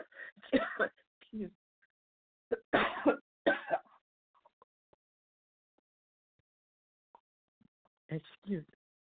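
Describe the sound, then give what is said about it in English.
Coughing and throat clearing from someone who choked while reading scripture aloud: a cluster of harsh coughs, then a second pair, a long quiet pause, and a final couple of coughs. “Excuse me. I got strangled. I don't know why I got strangled.”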